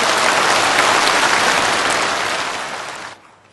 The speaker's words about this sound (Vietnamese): Xin quý vị hãy dành những tràng pháo tay thật lớn để chào mừng.